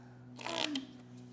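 A deck of cards is shuffled in one quick, faint riffle lasting under half a second, set against a steady low hum.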